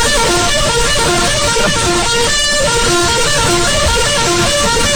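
A loud comedy horn sound effect blares without a break for about five seconds, its sustained tones stepping between pitches.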